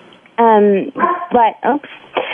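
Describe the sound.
A pet dog named Blue gives a few loud, high whining yelps and barks with sliding, falling pitch, separated by short pauses.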